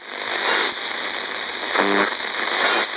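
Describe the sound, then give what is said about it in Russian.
Crackling static interference on a radio receiver: a loud, steady wash of hiss and crackle throughout, with a brief tonal burst partway through. “Сквозь треск помех донесся смутно знакомый, мужественный и звучный голос.”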